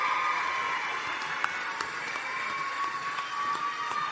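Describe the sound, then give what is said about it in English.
Faint applause from the audience at a contest as contestants are introduced, a steady, even wash of clapping with a few sharper claps poking through. “Keep applauding. Keep it going. Keep it going.”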